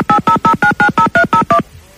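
A telephone number is dialed as touch-tone beeps: nine short, steady tones in an even, rapid rhythm, loud and alone, ending in quiet.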